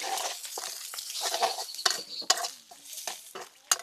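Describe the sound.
Rice fried with egg and garlic is stirred in a pan. A spatula scrapes and clinks against the pan in quick irregular strokes over a soft, steady sizzle.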